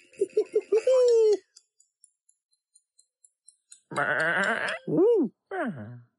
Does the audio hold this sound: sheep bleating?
yes